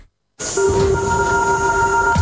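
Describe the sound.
Metro train sound effect: a sustained rumbling roar starts abruptly after a moment of silence, with steady high-pitched electric whine tones held over it throughout.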